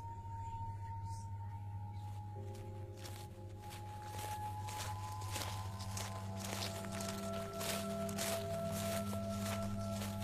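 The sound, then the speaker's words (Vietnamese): Footsteps squelch across a wet rice field: many soft, steady steps in an even rhythm, quiet beneath sustained droning tones. “ông nghe có tiếng người đi lẹp xà lẹp xẹp ở bên chỗ ruộng.”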